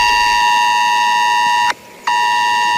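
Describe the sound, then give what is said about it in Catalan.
An emergency alert tone arrives on mobile phones during a drill. It is a loud, steady, high-pitched electronic tone that cuts out briefly and then resumes. “Escoltarem primer el soroll d'alerta que han rebut els veïns en els seus telèfons mòbils”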